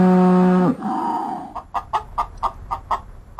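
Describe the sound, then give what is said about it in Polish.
Hens cluck on a free-range farm holding over 500 birds, giving a quick run of short, rhythmic, evenly spaced clucks that repeat steadily toward the end. “Dużo ma pan tych kurek? No, ponad 500. Na wolnym wybiegu”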